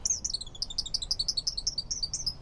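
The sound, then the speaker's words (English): Male song sparrows sing from a woody thicket along a riverbank: a continuous chorus of many quick, high, bright chirps and trills overlapping throughout, with no voices. “From a woody thicket along the bank, male song sparrows belt out their chorus all day long.”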